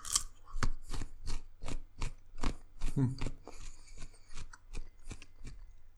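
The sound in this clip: Raw kohlrabi crunches crisply as someone bites and chews it, with many sharp, rhythmic crunches in quick succession and moist mouth noises between them.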